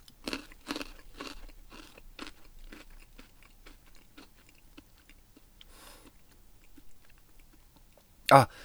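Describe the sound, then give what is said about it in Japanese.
Crisp crunching and chewing as a coconut-flavoured food is bitten and tasted: many sharp crunches come in quick succession at first, then thin out into softer, sparser chews, with one louder burst near the end. “じゃあちょっとこっちも食べてみたいと思います。”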